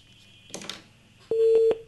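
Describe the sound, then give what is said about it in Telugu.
A telephone busy tone sounds as a call fails to connect: one short, steady, mid-pitched beep of about half a second. It comes after a brief stretch of quieter rustling noise. “So మరి phone చేశారు, phone call connect కాలేదు.”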